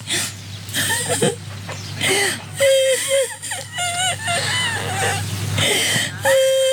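Tearful whimpering and wailing from an older woman on Indonesian Independence Day as the red-and-white flag flies, drawn-out voiced cries that waver up and down in pitch, moderately loud, broken by short sobbing bursts.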